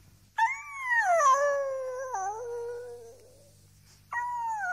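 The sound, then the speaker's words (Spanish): A dog howls plaintively at night: a long, wavering, tonal howl slowly sinks in pitch and fades, and after a brief pause a second howl begins at a higher pitch. “Persistían los aullidos lastimeros.”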